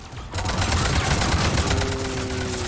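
Rapid gunfire in a video game begins after a brief quiet moment and continues as a dense, steady rattle of shots. A sustained tone joins near the end.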